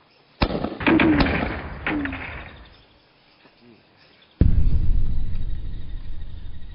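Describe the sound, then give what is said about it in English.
Mortar fire aimed at Japanese positions in jungle above an airfield: sharp, loud blasts with rumbling tails, a cluster early on, then a quieter gap before another heavy boom whose rumble lingers to the end. Brief shouted voices appear between the early blasts. “All morning long, Diego had his men struggling to get the range of the Japanese positions. Their mortars searching through the rolling jungle above the airfield they so desperately had to capture.”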